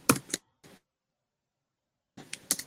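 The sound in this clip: Typing on a computer keyboard gives a few faint, isolated key clacks in two short clusters, separated by a long stretch of silence.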